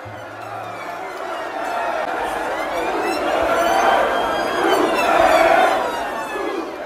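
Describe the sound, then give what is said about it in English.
Young revellers crowd the streets of Liverpool city centre as bars close before new COVID restrictions, hugging and chanting in protest. A dense wash of crowd voices swells and rises in loudness toward the end. “That's the sound of young people in the centre of the northern English city of Liverpool last month, as the bars of the COVID-hit city closed for the final time before a new round of restrictions. Large groups of revellers crowded onto the streets, hugging and chanting in protest”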